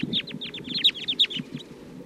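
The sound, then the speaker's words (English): A restless flock of about fourteen wild birds flies and perches in a treetop, giving many rapid, high, overlapping chirps and short calls over a steady low background noise. “About 14 birds. Now they're all perched here up in the treetop. Flying again.”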